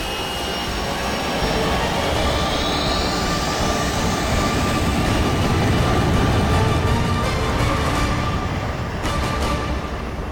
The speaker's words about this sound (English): Tacker ordered the pilot to lift. The pilot acknowledged, and Vulture 7 ascended over the airstrip.